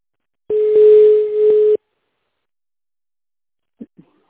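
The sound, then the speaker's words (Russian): A telephone line tone while a call is being connected: one steady electronic tone lasting just over a second. Silence follows, then two brief faint clicks. “соедините меня, пожалуйста, с Юлей.”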